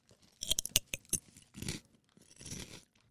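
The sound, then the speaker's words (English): Crunching on a chip that tastes of soy sauce: a burst of sharp, crisp cracks as it is bitten, then a few softer, grinding chews. “Should I eat my chip? I don't think I would eat a whole bag of them, though. I think I'll eat mine.”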